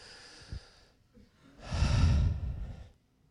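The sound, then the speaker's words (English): One deep breath drawn during a church sermon, a breathy rush that swells, holds briefly and then tapers off, preceded by a few soft small sounds. “Take a deep breath.”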